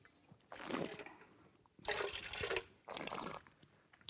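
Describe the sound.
Airy slurping as a 2019 red wine with a light Burgundy style is sipped and tasted, heard as three separate breathy, liquid pulls with short pauses between them and no talking.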